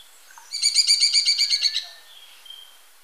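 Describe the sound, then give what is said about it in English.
A Smoky-brown Woodpecker call: a rapid, rattling series of many short, high-pitched notes that rises quickly and fades after about a second and a half, heard alone against a quiet background. “Smoky Brown Woodpecker.”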